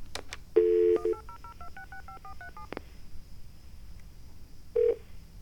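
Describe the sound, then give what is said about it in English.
Touch-tone dialing of a 1-800 number: a brief steady tone, then a quick run of several paired beeps at shifting pitches, and after a quiet pause one more short tone. “Did I dial I? Yes, I did. E-S. Cookies.”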